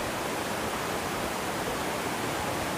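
The waterfall at a river barrage gives a steady, even roar of rushing water. It is loud and unbroken, with no voices.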